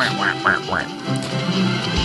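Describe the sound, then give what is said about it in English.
Ducks quacking, a few short nasal quacks in quick succession at the start, then a busy, noisy stretch without clear quacks. “I got the ducks for Burgess Meredith to ride later.”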